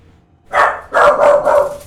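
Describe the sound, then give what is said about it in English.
An excited puppy barks while greeting someone coming home. It gives four loud, yappy barks: one on its own, then a quick burst of three. “Oh, goodness. That is an excited puppy to see Grandma coming home.”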